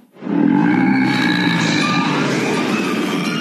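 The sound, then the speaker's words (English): Deep roaring sea-monster effect made from a recording processed by computer to sound as deep and roaring as possible: a loud, sustained, growling roar rises quickly and then holds steady and rough to the end. “I recorded that sound, then ran it through the computer, made it as deep and as roaring as possible, and then dubbed it in for the sound of the big underwater sea monster.”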